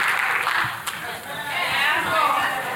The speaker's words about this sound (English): Not enough of you are clapping.